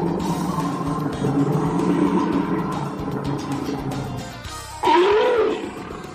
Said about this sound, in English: Jim, what was that animal sound? I'm going to go with a bear. I would say that you are correct.